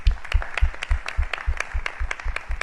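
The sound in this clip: Applause at a beer tasting event celebrating a revived Málaga beer brand, with loud, steady, rhythmic clapping of many even beats throughout.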